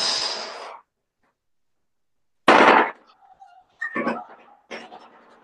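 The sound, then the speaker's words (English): A shoebill clatters its bill in a machine-gun-like rattle, several sharp bursts of rapid clacking separated by silent gaps. “and the top of their beak or their bill backwards and forth at different speeds, and it kind of clacks together. And that's how you get this kind of amazing machine gun type noise.”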